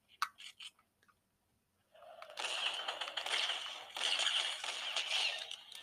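Someone chews crunchy food, with a few sharp clicks and bites at first, then a long stretch of continuous, gritty crunching and mashing.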